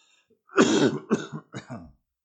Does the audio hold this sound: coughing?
yes